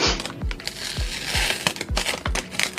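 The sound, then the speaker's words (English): Crinkling and rustling of a Tyvek envelope used as protective packaging for an Amiga 3000, with continuous papery crackle and a steady series of soft low thumps as it is handled. “That was just a Tyvek envelope that I wanted to protect it in.”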